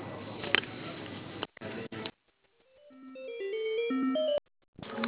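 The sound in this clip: Electronic phone-line tones play while a call is transferred to another cafe location: a stepped melodic sequence that grows steadily louder and climbs in pitch, with voices briefly before and after.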